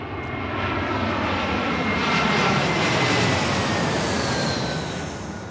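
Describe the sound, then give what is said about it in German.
A Lufthansa passenger jet airliner moves onto the runway with a steady, loud, broad engine roar that swells slightly toward the middle and eases a little at the end. “Gerade kommt eine Maschine auf die Startbahn. Wir gucken mal. Das ist der Lufthansa-Flug nach Frankfurt.”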